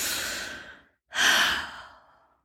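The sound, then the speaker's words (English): A deep breath drawn in during a calm breathing moment, followed after a brief pause by a long, airy sighing release; both breaths are soft and hissy and no one speaks. “Take you a breath in.”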